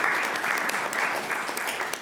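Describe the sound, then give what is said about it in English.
An audience applauds in celebration at a university address, with dense, steady, moderately loud clapping throughout and no talking. “So that's great news for celebration. Yes, we can applaud that.”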